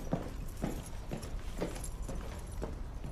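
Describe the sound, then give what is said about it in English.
Footsteps climbing stairs in an audio drama, a steady run of evenly spaced, soft thudding steps over a constant background hiss. “He walks up the stairs.”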